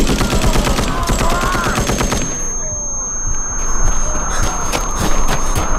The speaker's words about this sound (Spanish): Póngase de espalda y camine en 10 pasos. ¡Fuego!